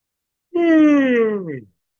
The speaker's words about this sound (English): All right, let me yawn.